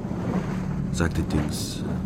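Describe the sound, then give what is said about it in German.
A boat moving along a river with water parting at the bow, a low continuous swishing rush of wash with a brief brighter surge midway. “Das Wasser teilt sich so schön am Bug.”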